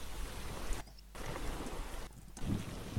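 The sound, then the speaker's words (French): Heavy rain beats on an aircraft cabin during a storm: a faint, dense hiss of drops mixed with wind noise that briefly cuts out twice. “Cette pluie qui s'abat de plus en plus fortement sur la carlingue.”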